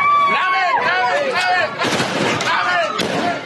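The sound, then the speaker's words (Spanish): Several sharp gunshots from a soldier firing his weapon in Tamaulipas to disperse attackers who were kicking and beating another soldier. The loud cracks cut through continuous shouting from a crowd. “Otro uniformado es el que logra frenar la golpiza. Dispara su arma para dispersar a los agresores.”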